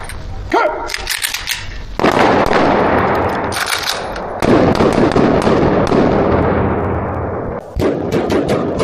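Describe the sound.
Gunfire from a police special-unit tactical shooting drill, with team formation changes and precision firing: dense, loud bursts of rapid shots crackle almost continuously, with a few brief gaps between volleys.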